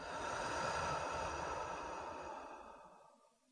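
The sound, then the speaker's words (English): A slow, deep breath during a guided relaxation, heard as one long, soft, airy breath that swells and then fades gradually into silence. “Take a slow, deep breath in through the nose and out through the mouth.”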